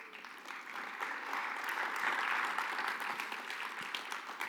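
Congregation applause at a church service welcoming a guest up front: faint, steady clapping that swells slightly in the middle and then eases, with no talk.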